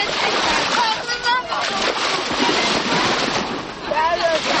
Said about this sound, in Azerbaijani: Bugündən Bakı çimərliklərində dəniz mövsümü açılıb. Şəhərin istisinə dözməyənlər artıq çimərliklərdədir.